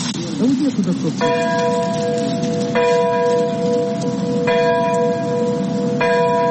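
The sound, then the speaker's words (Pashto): Church bells ring early in the morning in Ukraine to mark the Chernobyl nuclear disaster anniversary. A bell tolls four times at slow, even intervals, each strike holding a bright ringing tone over a steady, noisy background. “د پیښې د کلیزې په یاد په اوکراین کې سهار وختي زنګونه ووهل شول.”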